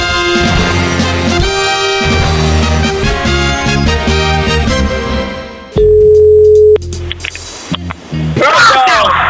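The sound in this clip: A single steady ringing tone of about one second from an outgoing phone call, loud and mid-pitched, cutting in after a stretch of loud music and followed by brief noise.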